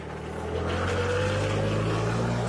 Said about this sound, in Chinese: 随着装满秧苗的插秧机缓缓驶入水田